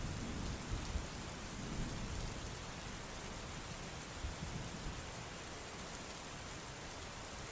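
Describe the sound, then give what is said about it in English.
Rumbling thunder with steady rain, a dense continuous hiss of falling rain over low rolling rumbles that swell and fade a few times, fairly soft, with no voices. “Total bewilderment and confusion as to the source of this subterranean thunder.”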